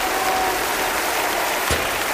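Concert audience applauding a pop singer on stage, a dense, steady roar of clapping with one sharper accent near the end.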